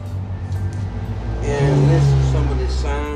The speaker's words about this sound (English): Excuse me about that. Someone outside had a problem with their motor.